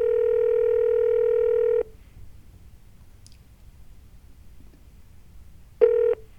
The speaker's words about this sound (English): You have dialed a number that is not available from your calling area.